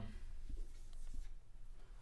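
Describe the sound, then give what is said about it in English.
A marker scratches and squeaks faintly across a whiteboard in a few short strokes against a quiet background. “I just had a thought that I don't want to lose so I'm going to write it on the whiteboard.”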